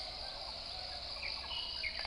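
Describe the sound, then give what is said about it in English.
Cicadas call in the mountains with a continuous, even, high-pitched buzzing drone that stays faint and unchanging throughout. “and the sounds of cicadas, the sounds of bird calls.”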